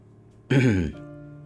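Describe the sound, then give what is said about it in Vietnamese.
A man clears his throat in one short, gruff, raspy burst, followed by a faint low hum. “Lâm Động cuối cùng hắng giọng rồi buông tay ra.”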